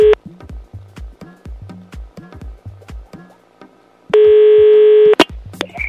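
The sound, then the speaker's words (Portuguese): Telephone dialing tones ring out as a call is placed: a short tone, then a quick run of many brief beeps, then a steady tone lasting about a second, with no talking. “Vamos ligar pro Ian?”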